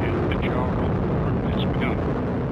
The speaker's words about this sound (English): We have RD-180 ignition, and we have liftoff of the United Launch Alliance Atlas V rocket carrying EchoStar 19.